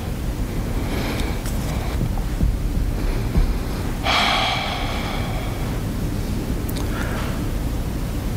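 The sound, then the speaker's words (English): Deep breathing in and out during a guided prayer breathing exercise: soft, airy breath sounds over a constant low rushing noise, with one louder, breathy rush midway, no voices. “And breathe out. Breathe in. And breathe out. Breathe in. And breathe out.”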